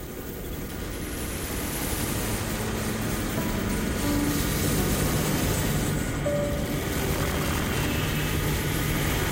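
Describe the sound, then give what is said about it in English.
An aircraft approaches a runway to land, making a steady, broad, rumbling engine roar. The roar stays loud and constant throughout, with a few faint tones mixed in. “Landing now, approaching the runway.”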